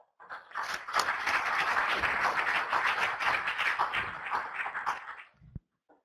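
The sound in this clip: Applause welcoming a speaker to a talk on on-farm soybean yield improvement: a dense, sustained wash of clapping that holds steady for several seconds, then tapers and stops near the end.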